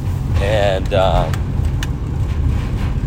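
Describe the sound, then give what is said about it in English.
Continuous low engine and road rumble from a big van being driven, a steady drone running under a person's talking. “this might be really loud in the background. I don't know how loud it is. Driving the big van.”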